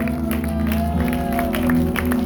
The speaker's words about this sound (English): Somebody give the Lord a hand clap.